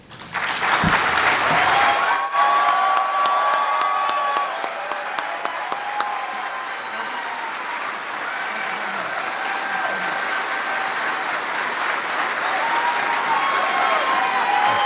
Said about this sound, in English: Ladies and gentlemen, please join me in a very loud and warm reception for the 45th President of the United States and our Commander-in-Chief, President Donald J. Trump.